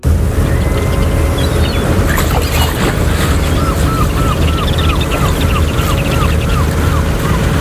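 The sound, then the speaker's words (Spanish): Harbour ambience at the port of Arguineguín in Gran Canaria: a steady, loud wash of water and wind noise over a low boat rumble, continuous throughout with no talk. “Este sonido que escuchas ahora mismo se escucha desde el puerto de Arguineguín, en Gran Canaria.”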